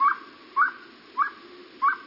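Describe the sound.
A small owl calls four times, each call a short, clear whistled note sweeping upward, evenly spaced and fairly loud, with no other sounds around it.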